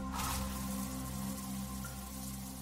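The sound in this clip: Shower water runs in a steady, even hiss at moderate loudness, continuous from start to end with no breaks, over a low constant hum.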